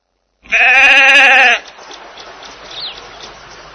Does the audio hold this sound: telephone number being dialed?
no